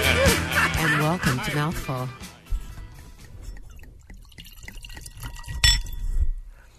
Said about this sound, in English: That's the sound of Miramar Estate. Let's see, Miramar Estate, 2008, Don Miguel Vineyard, earthquake block, going into the glass